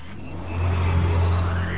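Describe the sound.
A Nissan car engine revs, its mid-pitched drone swelling louder after a brief moment and holding steady, with a faint whine rising above it. No voices are heard.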